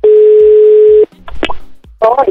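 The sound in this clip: Telephone dial tone heard while placing a call: a steady, loud, unbroken tone for about one second, then faint clicks and a brief voice.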